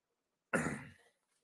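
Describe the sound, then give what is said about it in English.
A single short, rough throat clearing, a sudden loud burst that fades within half a second, surrounded by silence. “I'm sorry, I had something in my throat.”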